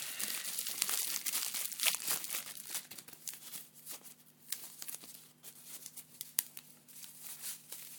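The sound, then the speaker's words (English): Crinkly bubble wrap packaging being unwrapped from around a pestle and mortar, a dense, continuous run of crackles, rustles and sharp pops over a faint steady low hum, with no speech. “Actually, no, let's unwrap the other bit before I tell you. More bubble wrappy sounds.”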